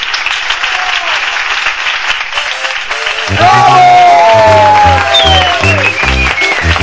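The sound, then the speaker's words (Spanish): Loud, sustained applause from an audience, with voices rising over it and a denser, fuller sound joining partway through. “¡Oh! ¡Ahí está el aplauso!”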